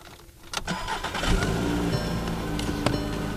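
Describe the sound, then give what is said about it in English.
A coal miner's Volkswagen Jetta starts up and drives off: the engine cranks and catches, then settles into a steady, rumbling mid-pitched hum that holds to the end. “And with that, he gets into his Jetta and heads to the mine to work one of his last night shifts.”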